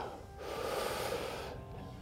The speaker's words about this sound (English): Exhale all that air out. Deep breath.